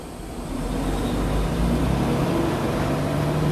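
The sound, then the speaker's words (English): Car engine rumbling as the car starts to drive off, growing louder over the first second or so and then holding a steady low drone. “And I'm taking off right now. I'm about to start driving. So give me a sec.”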